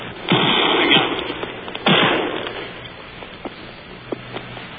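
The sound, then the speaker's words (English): A warship's guns firing at sea at night during combat: two heavy booming blasts, each trailing off in a long rumble, followed by scattered smaller pops. “There go our guns again.”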